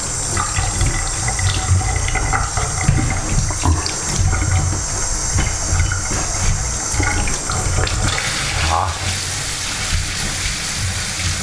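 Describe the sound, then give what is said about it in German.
Tap water running into a sink to rinse everything away, a loud continuous gushing and splattering stream that keeps going for about eleven seconds with a brief shift in tone near the end. “So, dann kurz mal alles wegspülen.”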